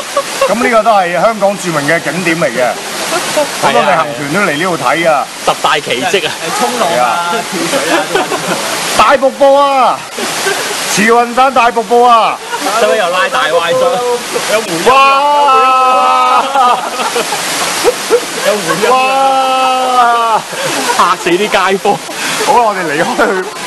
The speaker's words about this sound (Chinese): 咁我哋为咗更有郊游感觉，就攞呢个慈云山大瀑布啊，做我哋嘅背景啊。